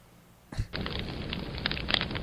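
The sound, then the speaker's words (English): A video-game fire effect played on a soundboard starts with a sudden whoosh as the flames catch. A steady crackling burn follows, with a few sharper pops near the end. “Ooh, we got a fire going. Just needed this in the basement.”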